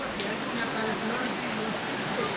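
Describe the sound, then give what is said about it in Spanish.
Early-morning rain keeps falling as a steady, even hiss of drops that continues unbroken throughout. “Son las 5 de la mañana y la lluvia aún continúa. Seguramente nos acompañará de regreso.”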